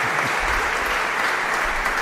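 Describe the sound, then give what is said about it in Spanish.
A church audience applauds the deacon: dense, even clapping from many hands, loud and continuous throughout. “Ya que no están aquí, por lo menos al diácono le doy un aplauso, porque para eso va.”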